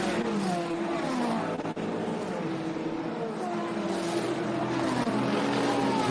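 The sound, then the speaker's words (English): A Ferrari race car drives during an endurance race, with a dense, steady engine roar and a sustained mechanical whine that holds nearly level throughout. “So actually, was that Thomas Fleur in the Vista EF Corsa Ferrari? Of course it was.”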